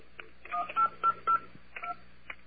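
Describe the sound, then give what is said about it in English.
Touch-tone keypad beeps sound as a telephone dials an airline, a quick run of short tones with three louder ones in the middle, all fairly faint. “I'm going to call British Airways.”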